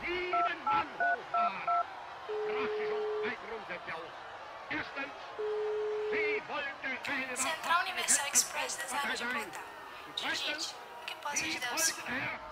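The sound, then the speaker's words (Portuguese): A touch-tone telephone dialing a toll-free 0800 number: a quick run of short beeps, then two longer steady tones, followed by people talking. “Já sei, vou ligar para o 0800 da Central Universal Express das Armas de Portal.”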